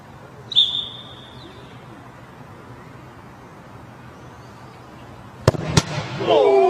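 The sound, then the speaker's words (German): A referee's whistle blows a single short, high, steady blast for kickoff as a footballer shoots at a robot goalkeeper. Some seconds of low background noise follow, then a few sharp, loud bangs. “Die Szene, die ihr jetzt hört, geht los mit dem Anpfiff des Schiedsrichters.”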